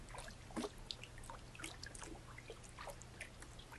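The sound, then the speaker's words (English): Water is poured over hair during a shampoo wash, giving soft trickling with many small irregular drips and splashes. The sound stays faint and alone throughout. “Oops, I kind of messed up your hair. Let's wash it. Hand me the shampoo. Lay back.”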